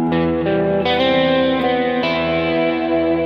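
Electric guitar solo with effects and distortion, played so its chordal structure stands out: a few sustained, ringing notes and chord tones that change several times, held loud and steady with no talk.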